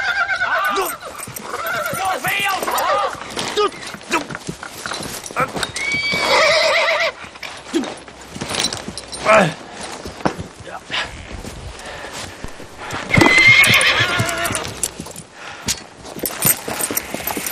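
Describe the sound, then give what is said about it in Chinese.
A stubborn donkey brays loudly several times while hooves clop along irregularly, mixed with voices talking. “往这边走！你这个臭倔驴！”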